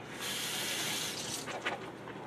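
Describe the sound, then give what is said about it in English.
Warm tap water runs over groceries being rinsed, a broad, even rushing hiss for about a second that then thins into softer, uneven splashes. “I wash everything right now with warm water because of COVID. I'm not being super picky. I'm not soaping everything down. But I'm just running it through a little water”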